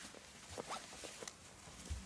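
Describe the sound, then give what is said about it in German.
A zipper is pulled closed on a garment as someone is helped into it, giving a few faint, brief rasping zips. “Kannst du nicht noch einen Reißverschluss zumachen?”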